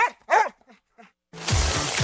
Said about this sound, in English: Take an adoptable shelter dog on an adventure and help them find a forever home.